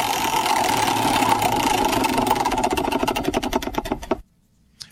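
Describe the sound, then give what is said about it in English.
Prize wheel spinning: a rapid stream of ticking clicks that gradually spaces out as it slows, then stops abruptly, leaving near silence with one last faint tick. “All right, let's spin it one more time before we break here. Spin the wheel.”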